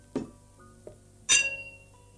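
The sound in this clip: Glasses clink as two men toast their children over a meal with a carafe: a bright, ringing clink that rings out and decays, preceded by a soft low knock and a fainter tap.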